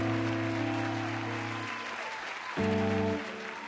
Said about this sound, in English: Applause for yourself!